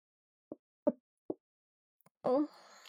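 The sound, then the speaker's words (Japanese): Drinking water being poured: three soft, separate plops, then a brief, bright gurgling pour that fades into a faint trailing hiss. “ここにちょうどおいしいお水があるんですよ。”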